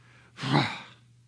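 A single loud, breathy exhale meant to show disgust, swelling quickly and fading over about half a second, heard alone without words.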